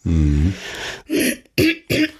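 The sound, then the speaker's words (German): Throat clearing by a man pausing mid-conversation: a short voiced hum, then three rough, raspy bursts separated by brief silences, moderately loud and without other sounds. “Kann ich mich mal räuspern, während ChatGPT sucht.”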